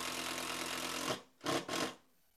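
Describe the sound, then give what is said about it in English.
A power drill pre-drills screw holes for a bracket with a long, steady, loud whir, then stops and gives two short bursts in quick succession. “I'm pre-drilling the holes here just to make it a little easier driving in the screws.”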